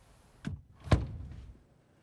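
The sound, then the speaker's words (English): A door closes quietly: a light knock comes first, then a firmer thump as it shuts, followed by a short fading rattle. “When Maggie closes the door on her, Ella lets out a sigh.”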